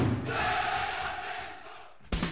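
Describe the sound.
A large crowd cheers and shouts at a street cheering event in LA's Koreatown, a loud, sustained wall of voices that eases slightly before a sudden fresh burst at the very end.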